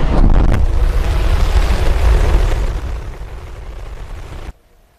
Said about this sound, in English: Now, SpaceX is celebrating a successful trip to orbit with its Starship rocket. 3, 2, 1.